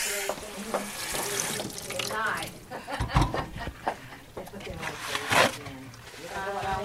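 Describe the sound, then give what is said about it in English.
Water runs from a kitchen tap while shrimp are washed under it in the sink, a steady splashing rush with shifting bursts as the stream hits the shrimp, and people talk over it. “washing shrimp right now”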